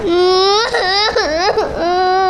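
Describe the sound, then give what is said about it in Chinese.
A young child cries in a loud, continuous wail with wavering pitch and a few sharp dips and rises, with no other sounds. “鱼儿啊，你怎么哭了？”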